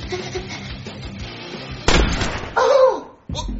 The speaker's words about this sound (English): Did he just get shot? Jesus Christ! Dude, it was just a Nerf bullet!